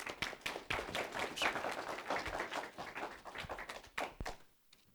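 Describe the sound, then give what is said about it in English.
Audience applause welcoming a guest preacher to the pulpit: brisk, dense clapping from many hands that holds steady, then thins out and fades near the end. “if you'll give Brother Phil Parks a wonderful round, just to welcome him”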